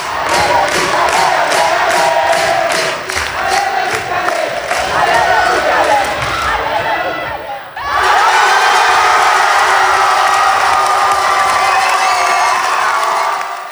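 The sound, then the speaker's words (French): Crowd cheering at match point of an under-17 girls' volleyball final for the Swiss championship: loud, sustained roar with a steady rhythmic pulse, a brief dip, then a renewed burst of cheering. “dans une atmosphère extraordinaire. Écoutez plutôt l'ambiance sur la balle de match.”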